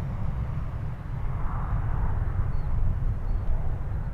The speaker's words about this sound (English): A recent departure from Cleveland Hopkins International Airport, and depending on where it's going, it's more likely now those passengers have to catch a connecting flight to reach their final destination.